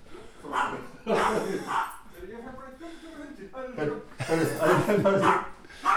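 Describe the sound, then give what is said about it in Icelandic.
An excited, frantic dog barks and yips in repeated bursts, the sharp calls coming in uneven clusters with brief pauses between them. “Hundurinn alveg brjálaður”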